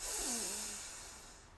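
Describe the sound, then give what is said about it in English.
A deep breath is drawn in during a guided healing meditation, a loud airy rush that starts strong and slowly fades over about a second and a half. “let's take a deep breath as we open our heart and open our bodies to any healing that may need to be happening right now in this day. So let's breathe in.”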